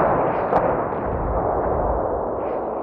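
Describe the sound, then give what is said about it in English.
Bombardment from 8-inch howitzers in wartime northern France during deep snow, heard as a dense, continuous rumbling roar at a steady loud level, with no clearly separate blasts. “And now they endured a blistering bombardment from 8-inch howitzers as they waited for the firing to let up.”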